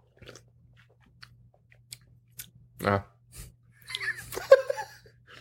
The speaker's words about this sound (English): So we're going to try these. These are brand new. We're going to taste them and see if it tastes like 90s.